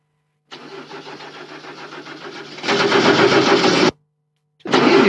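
A car engine starts after a starter motor repair with a replaced Bendix drive: a steady, rattling crank for about two seconds, then the engine catches with a louder roar and cuts off abruptly, and a loud burst returns at the end.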